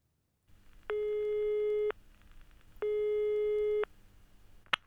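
Telephone busy tone, heard as two steady, moderately loud beeps of about a second each, separated by a pause of similar length, with a short sharp click at the very end.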